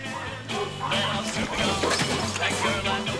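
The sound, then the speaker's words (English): A car boot flies open and spills a deck chair, beach ball and cases, heard as a series of thuds, clatters and crashes mixed with music and a speaking voice. “He waves weakly and hits another button. The boot flies open, spilling a deck chair, beach ball, and sundry cases.”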